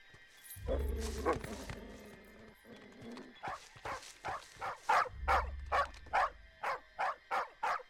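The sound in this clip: A dog barks in an animated cartoon scene: a rapid, steady run of sharp, evenly spaced barks that follows a lower droning stretch.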